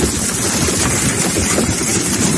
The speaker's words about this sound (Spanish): Con esa intensidad baja el agua por el barranco de la presa, que se ha desbordado.